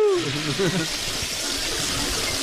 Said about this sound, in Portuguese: alguém puxou a descarga